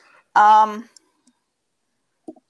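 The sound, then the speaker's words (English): Computer mouse clicks: a few faint, short, dry clicks follow a single brief spoken word, with silence between them. “I think I could actually click on it.”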